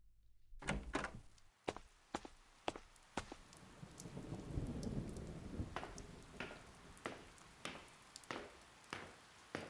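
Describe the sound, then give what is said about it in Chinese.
Heavy rain pours down in a sudden downpour, a dense steady hiss of water broken by many sharp splashing impacts throughout, loud and with no voices. “立马就大雨倾盆。”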